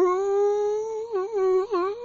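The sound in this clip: A person's voice imitates a howl heard from across a lake, a call likened to a bonobo rather than a wolf or coyote. A sustained, steady, fairly quiet hoot wavers and dips twice near the end.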